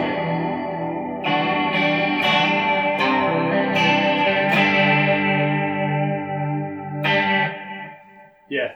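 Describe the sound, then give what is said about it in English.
An electric guitar runs through a chorus pedal for a shimmery 80s tone. Many strummed chords ring out with a wavering, doubled sheen, then fade toward the end before one brief final note. “So that's what a chorus pedal does.”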